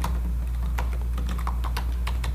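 Rapid keystrokes on a computer keyboard as someone types a waypoint label into a mapping program, many crisp clicks in a quick, uneven rhythm over a steady low hum, with no talking.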